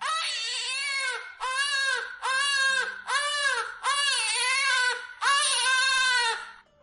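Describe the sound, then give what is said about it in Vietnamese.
Two babies crying loudly, a string of long, high, strained wails broken by brief pauses for breath, each burst wavering in pitch and staying loud from start to finish. “Hai tiếng trẻ con khóc toáng lên làm Tiêu Thanh Tuyền”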